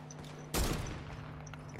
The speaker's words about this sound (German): Nee, ich will jetzt einfach nur snipen.